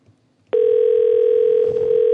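Telephone tone on a call being placed: after a brief quiet moment, a loud, steady, mid-pitched tone starts abruptly and holds unbroken to the end, with no talking.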